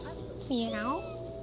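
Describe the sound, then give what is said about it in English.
A cat gives a single drawn-out meow, faint and clearly voiced, rising out of a quiet background hum and fading away. “You say meow, meow, meow.”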